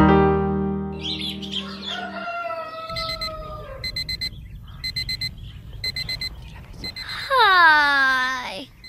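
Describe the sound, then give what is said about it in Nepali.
An alarm clock ringing at six in the morning: rapid groups of high electronic beeps repeat steadily after a sustained low musical tone, and a loud rooster crow follows at the end. “आज पनि छ बजिसकेछ, alarm भन्दा पहिले उठ्छु भन्छु, जहिले अलार्मले जितिहाल्छ।”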